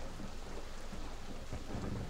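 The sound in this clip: Rain falls steadily during a thunderstorm, with low rumbling under an even, continuous wash of noise and no talk.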